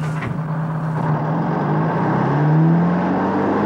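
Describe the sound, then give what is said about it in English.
A truck rig roars as it pulls away through camp gates, a dense, steady engine rumble that swells slightly and rises a little in pitch toward the end, with no voices. “The rig pulls away, belching dark grey smoke from its exhaust pipes. As it roars out of the camp gates”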